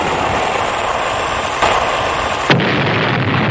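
A cannon fires a shot as a sound effect in a mock naval attack on a sailing ship. A continuous roaring rumble carries a brief burst near the end, after which the hiss thins out; no voices.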